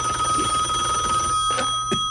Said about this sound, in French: Belle sonnette.